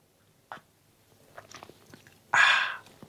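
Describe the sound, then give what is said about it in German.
A sip of coffee opens with a small click and faint movement, then one loud, hissing slurp lasting about half a second. “ich nehme auch vorher noch mal einen stärkenden Schluck Kaffee.”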